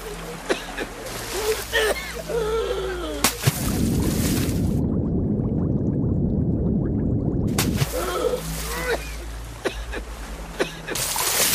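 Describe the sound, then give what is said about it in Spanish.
Water splashes and churns for about four seconds as a man falls from an overturned canoe into the water and struggles. Louder, denser noise sits in the middle, with voices and other sounds before and after it. “¡Está volteando la canoa! ¡Está volteando la canoa! ¡No! ¡Ey!”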